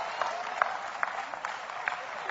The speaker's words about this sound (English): Oh, come on, clap anyhow. Praise God.